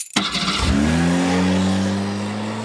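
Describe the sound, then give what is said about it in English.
Car engine revving as it is given some gas: a loud, sustained throaty roar that settles into a steady drone. “I just wanted to know whether to put the giving some gas sound effect. We're going to gas up the mine right here.”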